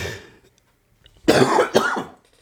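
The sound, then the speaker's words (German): Two harsh coughs burst out in quick succession, the second close behind the first, loud and without talk around them. “Mann, jetzt muss ich hier husten, das ist ja furchtbar. Ich hoffe, das gibt sich gleich wieder.”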